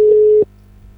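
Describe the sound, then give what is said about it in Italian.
Telephone ringback tone on an outgoing call to a studio, a single steady mid-pitched beep lasting under half a second, then cutting off to near silence. “il telefono sta suonando e vediamo se ci risponde, perché in questo momento mi ha detto che è in studio.”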